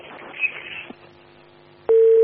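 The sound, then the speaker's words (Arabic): A steady electronic telephone tone cuts in loudly after a phone call is dropped. It holds at one constant pitch to the end, following a short stretch of faint, muffled line noise. “سبحان الله، قطع الاتصال.”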